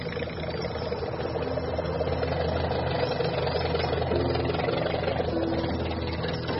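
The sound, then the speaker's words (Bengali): A lorry engine runs with a steady low rumble and a mid-range drone, holding an even loudness throughout with no break or cut-off. “একটু পরেই lorry থামল।”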